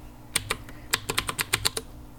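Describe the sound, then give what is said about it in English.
Typing on a computer keyboard while entering a name during Windows XP setup: two crisp keystrokes, then a quicker, evenly spaced run of clicks, alone without talk. “I'll just type. Enter name.”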